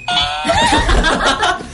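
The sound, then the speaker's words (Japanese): A doorbell ding-dong chime sound effect rings out bright and loud at the start, its tones fading into a rougher, noisier stretch of sound. “一応ピンポン聞きます。 聞きましょうか。”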